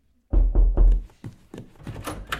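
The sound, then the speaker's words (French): A door sound effect at a live public show: three heavy, low thuds in quick succession, then a few lighter, higher knocks and clicks. “C'est les mêmes bruits de porte partout”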